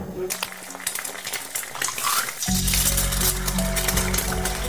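Eggs frying in a pan: light clinks and scrapes of utensils come first, then a loud, steady sizzle takes over midway and carries on to the end.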